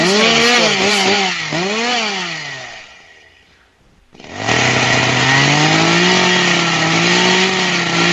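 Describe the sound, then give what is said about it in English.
A chainsaw, started up to cut a bike, revs in loud wavering bursts, then dies down to near silence and roars back to a steady, buzzing high-pitched run. “I'm starting it up. I'm going to cut her bike.”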